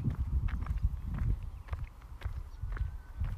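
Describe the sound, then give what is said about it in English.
Footsteps walk away from a group of geese in a steady series of soft, dull steps over a constant low rumble. “you know what? I don't need to challenge these geese. I think I'll just turn around and walk the other way.”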